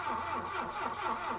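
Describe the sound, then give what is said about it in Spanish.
A car engine started on request during an inspection under the open hood, giving a faint, steady mid-pitched running hum throughout. “Trate de arrancar el motor, por favor.”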